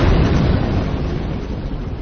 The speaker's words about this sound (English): This is the sound of a car bomb exploding less than a block away.